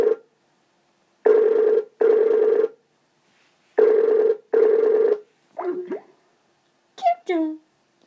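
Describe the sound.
A telephone ringing on an unanswered call. Two pairs of steady, buzzing rings are separated by a pause, then a few short, different tones sound near the end.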